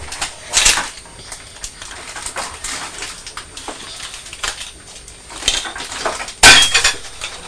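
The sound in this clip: Someone struggles to pull the lid off a chocolate box, producing a few sharp clicks and clattering knocks amid softer rustling and handling noise, with no talk.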